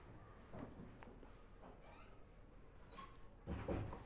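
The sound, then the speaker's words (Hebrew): A door being closed gives a soft, dull thud near the end, after a few faint knocks and shuffles. The whole clip is quiet. “אפשר לסגור שם את הדלת אם קשה לך?”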